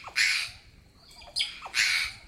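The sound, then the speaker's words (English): Harsh, raspy squawks from a flock of jays with blue-and-white heads and long black forward-curling crests at a forest edge; a few loud, noisy calls spaced apart, with softer calls between them. “A flock of jays is emerging at the forest edge. Their heads are blue and white, with a long black crest curling forward.”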